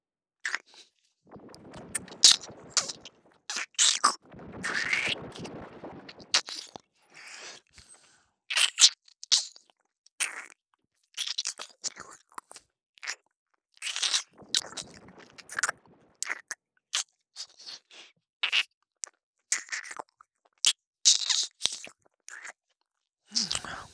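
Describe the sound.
Crunchy biting and chewing in an intimate roleplay of being eaten: many short, sharp crunch bursts in an irregular rhythm, some clustered and wetter, separated by brief silences.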